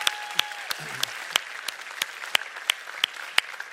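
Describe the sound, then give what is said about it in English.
A church audience applauds the First Impressions team with sparse, sharp, evenly spaced claps in a steady rhythm, thin rather than a full ovation. “Can we give it up for everyone who serves on the First Impressions team?”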